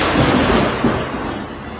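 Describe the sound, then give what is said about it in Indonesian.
Thunder outside, a loud deep rolling rumble that carries on steadily with a slight swell partway through. “Ya, di luar petir.”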